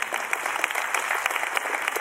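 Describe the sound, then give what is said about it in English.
A church audience clapping their hands during a sermon, a brisk, dense patter of many hands with sharp individual claps popping out of the steady rattle, moderately quiet and without talk. “Clap your hands if you believe he crashed.”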